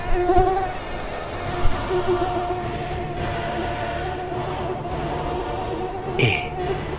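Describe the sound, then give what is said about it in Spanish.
A mosquito, the single insect trapped inside a protective wrapping, gives off a thin droning whine that hums steadily through the whole clip with slight wavering and a brief sharper buzz near the end. “no le alcanzaría la picadura de ningún mosquito. Y se cumplió su orden, pero solo un insecto quedó dentro de aquella envoltura.”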